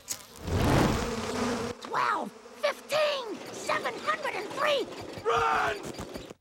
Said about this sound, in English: Hey, Dad, it's just a bug. 2. It's not just a bug. It's the queen of something! 10! Don't worry, I'll set fire to the hive!